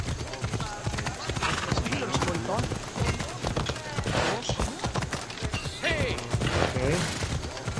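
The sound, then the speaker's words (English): Rhythmic clip-clop hoofbeats of a horse galloping away in a video game, steady and fairly loud, mixed with other busy game sounds throughout. “Wow, she runs away on her horse. Oh, horseback riding.”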